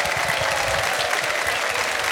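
A live show audience applauds to welcome a performer to the stage, with dense, steady clapping that holds at an even level from start to finish.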